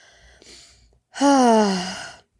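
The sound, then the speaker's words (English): A big deep breath: a faint intake, then a loud, drawn-out voiced exhale that slides downward in pitch before stopping. “That was the first big breath I've taken in a while.”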